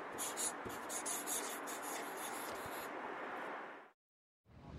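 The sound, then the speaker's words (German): Pen scratching on a slip of paper as someone writes by hand: a steady, dense rasp that runs for about four seconds, stops briefly, then starts again. “Ich schreibe auch Hi. Was schreibe ich jetzt?”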